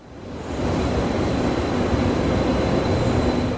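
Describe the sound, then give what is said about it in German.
Regional passenger train running on rails between Lübeck and Kiel: a broad, steady rumble that swells in over the first half second and then holds level, with a faint thin whine above it. “Noch fahren die Nahverkehrszüge zwischen Lübeck und Kiel ohne Probleme.”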